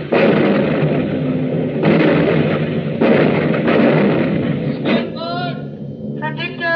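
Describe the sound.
Anti-aircraft guns firing on command, a loud, dense roar of heavy booms and rumble with a few stronger bursts, continuing almost without pause; a voice is briefly heard near the end.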